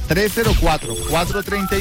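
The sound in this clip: Telephone ringing after a number has been dialled on a call, a steady ring running through the short clip with voice-like tones mixed in.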